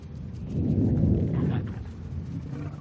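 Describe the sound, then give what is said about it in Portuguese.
Deep thunder rumbling, a broad low roar that swells to its loudest around the first second and slowly fades over about three seconds, with no voices. “Me diga que isso foi seu estômago. Não, foi só uma trovoada. Veio lá de baixo.”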